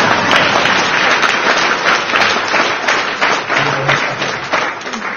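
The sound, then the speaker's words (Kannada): Audience applause at a gathering: dense, sustained clapping of many hands that stays loud across the whole clip. “ಮತ್ತೆ ಯಾವ್ದನ್ನ ಇಷ್ಟು ನೀವು ಚಪ್ಪಾಳೆ ತಟ್ಟಿದ್ದು ಯಾರಿಗೆ?”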